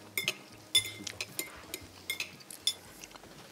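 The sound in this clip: Cutlery clinks and scrapes on a plate as a small filled dish is cut through the middle: many light, sharp metallic taps at an irregular rhythm, with no talk.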